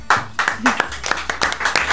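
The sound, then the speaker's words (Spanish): Hand clapping from a small group greeting a union leader's introduction: many sharp, distinct claps in an uneven rhythm, fairly loud, with a low sustained sound underneath. “Aplausos acá.”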